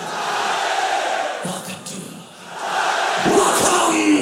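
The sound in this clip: Crowd roaring and shouting at a live concert by a German band: a loud mass of voices dips briefly in the middle, then swells back up even louder.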